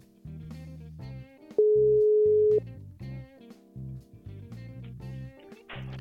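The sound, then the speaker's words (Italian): A single steady mid-pitched ringing tone of an outgoing phone call, lasting about a second, sounds over rhythmic background music with low bass notes and chords that continue before and after it. “Anzi, chiamalo tu, va. Lo sto chiamando.”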